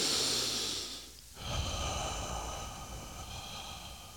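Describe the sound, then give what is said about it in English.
A person breathing out completely during a guided relaxation breathing exercise: a long, loud, airy exhale, a brief pause, then another softer, drawn-out breath that slowly fades. “breathe out completely. So as you're breathing, it sounds like this.”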